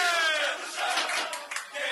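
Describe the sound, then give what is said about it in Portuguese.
São Paulo players chant the traditional songs of the Mancha Rubro-Verde organized supporters, a loud group of male voices singing and shouting together with a few dips in volume. “As tradicionais músicas da torcida organizada lá de São Paulo, Mancha Rubro-Verde, entoadas aí pelos jogadores do São Paulo.”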